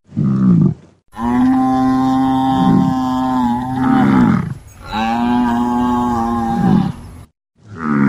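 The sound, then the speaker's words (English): A herd of buffalo mooing in a few long, deep, loud lowing calls that swell and overlap, separated by brief gaps. “So I've got you a herd of buffalo, Andy.”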